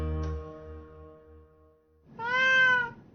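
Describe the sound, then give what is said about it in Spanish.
A black cat meows once near the end: a single drawn-out, clear harmonic call, fairly loud and alone, with no talk. “Pero mi gato negro es diferente. Él acepta mi amor sin reservas. Pide comida con ternura y maulla de manera adorable cuando quiere agua.”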